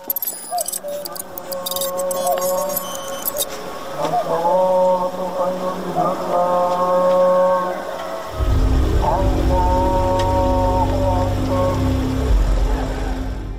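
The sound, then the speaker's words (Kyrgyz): A motorcycle engine breaks the dawn quiet of a village, a loud low rumble that starts midway and holds steady beneath sustained tonal sounds. “Баткендин Самаркандек айылындагы таңкы жымжырттыкты Мураптын мотоциклинин үнү бузуп, айрым үйлөрдүн жарыгы күйө баштады.”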